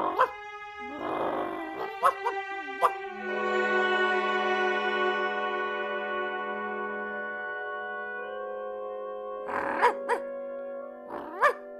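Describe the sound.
A dog barks and yips in a few short, sharp bursts while out on a walk on a green hill in Bayreuth. Long, steady musical tones sound between and under the barks.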